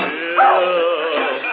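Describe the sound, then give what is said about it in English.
A large, clumsy dog indoors near a Christmas tree gives an unbroken run of loud, high yelping barks mixed with whining whimpers. “Of all the clumsy, fumble-footed hounds.”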